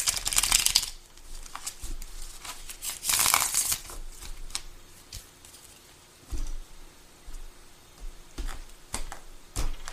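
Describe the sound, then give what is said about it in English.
Tarot cards are shuffled and drawn from a deck: two brief rustling bursts, then scattered soft taps and clicks. Quiet overall, with no talking. “And I'm going to pull two cards from this deck.”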